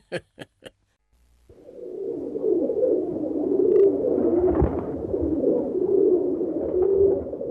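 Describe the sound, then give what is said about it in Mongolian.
Low, murmuring cooing from a pigeon sitting in its nest, steady and continuous for several seconds, preceded by three sharp clicks. “Чи үүртэй болчихлоо тахта! Чи одоо үүрэндээ суугаад дуулчих.”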